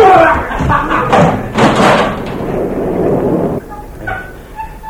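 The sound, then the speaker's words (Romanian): Heavy, booming thuds as men break down a door, several loud blows with broad rumbling impacts, then a quieter stretch with lighter knocks; men's voices are mixed in. “Băieți, să spargem ușa.”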